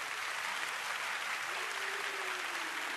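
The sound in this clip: An audience claps in a dense, steady stream of applause that holds an even loudness throughout, with no clear break or rise.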